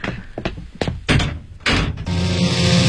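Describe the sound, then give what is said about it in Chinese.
Dull thuds of a room door being closed, a few separate knocks and bumps spaced over the first two seconds, then a steady rougher rustling noise that carries on to the end. “周莹莹刚关上房门”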